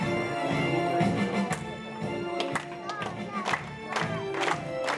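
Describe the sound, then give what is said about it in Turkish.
An audience at a flag ceremony rises to its feet in applause and cheering, a dense, continuous wash of clapping and crowd noise with a few sharper bursts and no clear talk. “Bütün zaldıklar orundan turup, güldüras alkış içi de hürmet bildi.”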